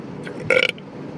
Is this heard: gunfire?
no